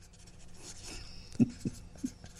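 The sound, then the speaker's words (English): A pen scratches faintly while writing on the back of a business card, with soft, quiet strokes followed by a few light knocks near the end. “I'm writing it down on the back of a business card.”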